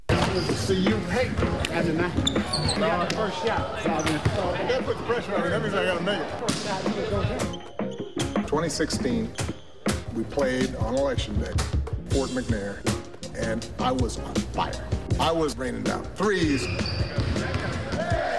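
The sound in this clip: Basketball bouncing during a pickup game, with many quick, hard thuds and sharp squeaks in an uneven rhythm, heard under people talking and calling out throughout.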